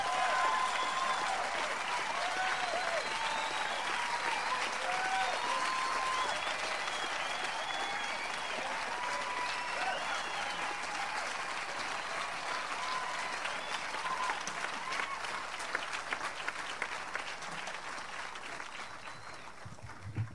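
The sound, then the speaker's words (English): Audience applause at a concert welcoming guitarist Doc Watson and Jack Lawrence to the stage: dense, steady clapping from a large crowd that carries on for about twenty seconds and thins slightly toward the end. “So put your hands together and welcome Doc Watson with Jack Lawrence.”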